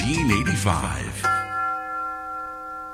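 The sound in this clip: University tower chimes ring, a clear sustained bell tone that hangs and slowly fades after a voice speaks briefly at the start.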